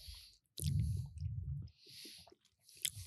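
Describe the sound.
Quiet, wet chewing of goat cheese, with soft squishy mouth sounds in a few bursts separated by short silences.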